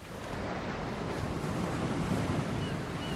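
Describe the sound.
Big ocean waves surge at the Mavericks surf break during a surfing scene, forming a steady, loud, roaring wash of surf with no breaks and no voices.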